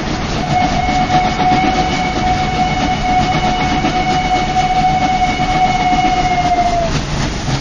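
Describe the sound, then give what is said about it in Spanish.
A train rumbles steadily as it arrives at platform 4 of a station, with a loud continuous drone and a sustained high tone that holds level, then drops in pitch just before it fades near the end. “Atención, atención. Tren procedente de misterios y leyendas efectuará su entrada en la vía 4, final de trayecto.”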